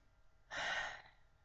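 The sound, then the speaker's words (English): A single deep breath is taken alone, a short, soft, airy rush of air lasting about half a second. “Let's take a breath on that.”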